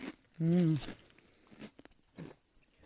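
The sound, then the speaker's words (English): Crunching of a bacon-flavour Waffles crisp being bitten and chewed, with a few short crackles alongside a brief voiced murmur. “These are waffles. These are a bacon flavor crisp. I'll have one first.”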